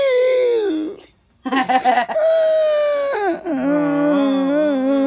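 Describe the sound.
A person cries loudly in high, wavering wails and sobs, with a short break before the crying resumes in choppy bursts and ends in a trembling, quivering moan.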